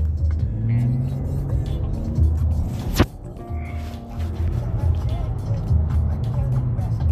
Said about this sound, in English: Man, these people drive like maniacs out here.